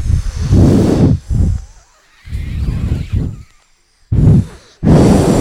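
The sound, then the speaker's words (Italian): A voice imitates a wolf huffing and blowing hard at a brick house, in several forceful, breathy gusts separated by short pauses. “Il lupo soffiò e risoffiò, restando sconcertato, oltre che senza fiato.”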